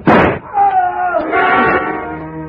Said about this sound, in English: I didn't want to fire, but I had to, and fast in the darkness. Aim was next to impossible, but I shot low.